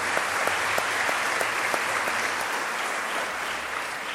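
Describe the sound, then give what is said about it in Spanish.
Sustained applause for a parish and its priest, a dense, even wash of many hands clapping at steady loudness throughout, with no voices over it. “Así que un aplauso a esta parroquia y a su párroco también y a todos los que hemos tenido el privilegio de estar aquí.”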